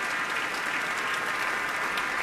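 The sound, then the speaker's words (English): Seated orchestra members applaud a pianist after a Mozart piano concerto performance, a dense, even wash of clapping that holds steady at a constant level for the whole stretch, with no voices standing out. “the members of the orchestra are seated and they are clapping, letting him soak it in all by himself.”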